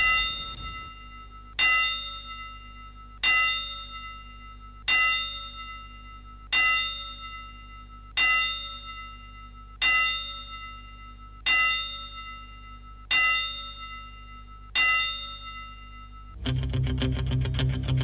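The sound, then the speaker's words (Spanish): Bell tolls struck as a memorial tribute ring out at even intervals, each with a bright clang and a ringing decay. A buzzing noise rises at the very end. “Hacemos honor, como se acostumbra, Damián, aquí en cualquier parte del mundo, a las 10 campanas en memoria de Víctor Salazar.”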